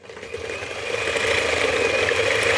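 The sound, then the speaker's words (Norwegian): An electric whisk whipping coffee gives a steady, high whirring motor buzz that grows louder over the first second, then holds at an even level. “Og det skal vispes skikkelig, eller?”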